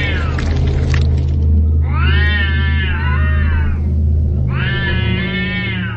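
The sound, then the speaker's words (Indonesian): Cats yowl after a fight over a stolen fish, giving two long, drawn-out, wavering cries a few seconds apart over a steady low rumble. “seekor kucing yang baru saja tarung dengan kucing lainnya hanya karena rebutan ikan”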